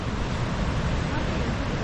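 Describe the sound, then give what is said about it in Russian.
Ocean waves break at a surf spot in a continuous, loud roar of churning water with heavy low rumble and wind noise throughout. “Так, еще волна пошла.”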